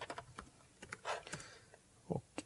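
Typing on a computer keyboard while writing code: quick, quiet, irregular key clicks in short bursts, with a couple of louder taps near the end and no voices.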